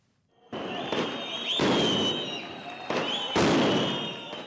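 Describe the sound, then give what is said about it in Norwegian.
Loud popping bangs as riot police fire tear gas canisters at demonstrators during night street clashes in Istanbul, several sharp launches ringing out one after another over a sustained roar of noise. “Det høres ut som et land i krig, men dette er Istanbul i Tyrkia i natt. Opprørspolitiet skyter med tåregasspatroner mot demonstrantene.”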